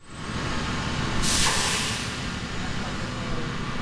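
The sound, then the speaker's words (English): A fire truck backing out of a fire station in Clearwater: a steady engine rumble with one loud burst of air-brake hiss lasting under a second, then the rumble carries on. “That's the sound of a fire truck backing out of a Clearwater fire station”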